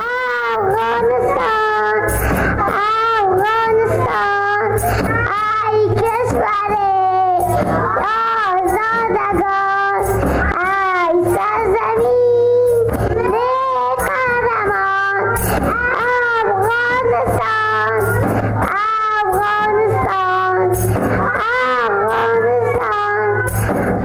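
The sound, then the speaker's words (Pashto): A group of kindergarten children sing a song together in high voices, keeping a steady, repeating tune that goes on without a break. “تېره ورځ یوه وړکتون ته تللی وم د هغوی ترانې وخت و چې د دغو کوچنیو ماشومانو وړتیاو ته واقعا هم که څوک وړکتونونو ته لاړ شي ډېر وخت سړی حیرانېږي. ترانه یې ویله ما دا ترې ثبت کړې ده”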